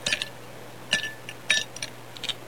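Clinks of a whisky glass: several sharp, bright glassy taps spread unevenly across the moment, one with a short ringing tone, over a quiet low hum.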